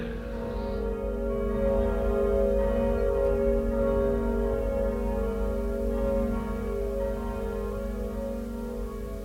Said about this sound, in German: Fassen Sie sich, hochwürdiger Herr, und eilen Sie. Die Glocken läuten schon. 10 Uhr.